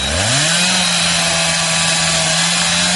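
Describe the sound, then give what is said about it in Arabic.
Power tool whirring as a comic sound effect for unscrewing a bolt in a comedy series, its loud buzzing drone climbing quickly in pitch at the start, then holding a steady tone. “ايه يا عم الصوت ده انت بتفك بلتكانة”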